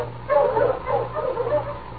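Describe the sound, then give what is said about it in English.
Sled dog huskies yipping and barking as they are driven, a few moderate-level yelps over a steady low hum. “Mush, you huskies!”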